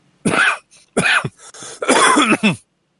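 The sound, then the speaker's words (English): A person has a coughing fit: several harsh, loud coughs come in clustered bursts separated by short gaps, with no talking. “The edge of this coughing attack.”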